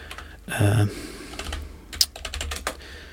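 Keyboard typing as an artist's name is entered into a music app's search field: many quick, light key clicks in an uneven rhythm, preceded by a louder, duller thump.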